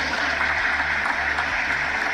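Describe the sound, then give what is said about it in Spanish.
Steady applause for baseball player Shohei Ohtani, a dense, even wash of clapping that holds at the same level throughout, with no voices standing out. “Sí, todos los aplausos para Shohei Ohtani”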